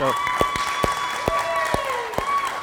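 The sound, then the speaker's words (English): Applause from an audience celebrating a child's baptism, a steady wash of clapping with regular sharp beats and some speech over it. “So that's why we're clapping. We're celebrating Buck and his decision to surrender his life under the lordship of Jesus Christ.”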